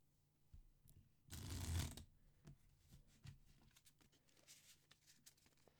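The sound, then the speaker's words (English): A deck of playing cards is handled and shuffled for initiative in a Deadlands tabletop game, one quick papery riffle burst followed by faint, scattered rustles and taps. “Initiative in Deadlands is done with a deck of cards. Let me grab that real quick.”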